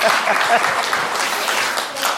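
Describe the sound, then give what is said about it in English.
Congregation applauding during a church service: a steady, dense patter of many hands clapping at moderate loudness, holding evenly throughout without voices standing out. “In fact, let's applaud her for that.”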